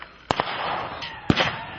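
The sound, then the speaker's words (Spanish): Gunshots ring out during a clash between security forces and civilians in Colombia: a few sharp, loud bangs, some in quick pairs, over a low background rumble. “¿Eso es bala? Sí.”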